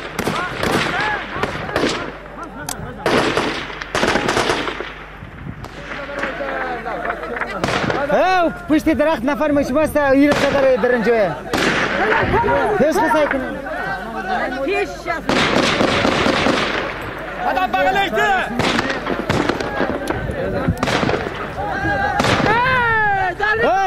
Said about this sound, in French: Il y a le bruit sourd des mitraillettes